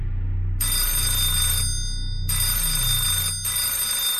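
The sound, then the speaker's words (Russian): A shrill, harsh electric doorbell sounds as its button is pressed hard. Two long piercing bursts rich in high overtones sound over a low rumbling background, split by a brief gap. “Звонок отвратителен. Пронзительный резкий писк. Порядочные люди не давят кнопку со всей дури.”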